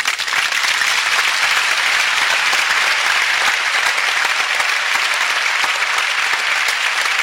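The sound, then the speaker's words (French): An audience applauding and acclaiming during a blessing from a mother for her children: dense, steady applause that stays loud and continuous for the whole stretch, with no breaks. “Alors tous ensemble, répondant à son sourire en l'acclamant très fort.”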